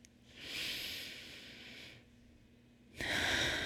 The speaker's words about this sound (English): Okay, we'll do it a third time. And this time I want you to breathe in joy.